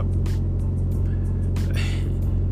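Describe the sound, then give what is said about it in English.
A truck trailer's refrigeration unit runs with a steady, loud, low mechanical drone that holds constant throughout. “my reefer just turned on”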